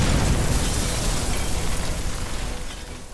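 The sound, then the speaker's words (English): An explosion effect for a living-bomb burst power: a loud, broad, low rumbling roar that holds steady, then slowly fades over about three seconds. “I call upon the power of Blastar, the living bomb burst.”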